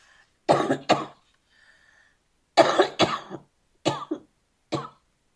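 Dry coughing from a parched throat: several harsh, fairly loud coughs, mostly in quick pairs, separated by short pauses, with no talk.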